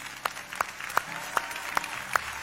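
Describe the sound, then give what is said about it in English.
An audience applauds during a church service as a new member is welcomed: steady, soft clapping with a regular beat of sharper, louder claps standing out roughly every third of a second. “Let's give him a hand.”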